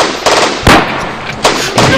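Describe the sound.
Gunfire in a video game shootout: a few sharp, loud bursts, one especially strong, over a continuous noisy game background.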